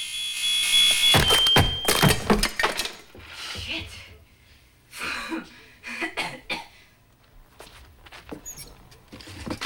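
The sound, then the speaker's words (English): A smoke alarm on a hall ceiling is bashed with a broom handle. A steady, shrill alarm tone sounds first, then breaks into a run of hard, clattering knocks in an uneven rhythm, with scattered bumps afterward. “She grabs a broom and starts wafting it below the smoke alarm on the hall ceiling. It doesn't respond, so she turns the broom around and bashes the alarm with the handle.”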